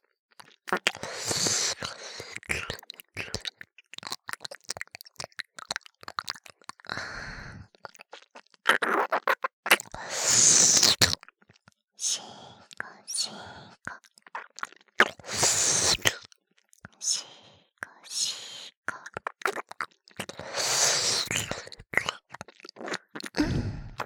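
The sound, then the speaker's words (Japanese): Scratching and rubbing as cream is worked onto a surface, heard as many irregular crackly, crunchy bursts of varying loudness across the whole stretch, with short quiet gaps between them. “クリームつけてるから。すごい音だね。”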